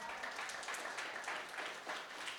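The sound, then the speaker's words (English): Faint applause from an audience during a sermon: a dense, even patter of many hands clapping that holds steady for the whole two seconds. “And I guess you do too, because that's the first time you actually clap when you...”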